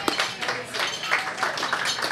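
Audience applause welcoming a storyteller to the stage: steady, dense clapping runs through the whole stretch at an even level without a clear break.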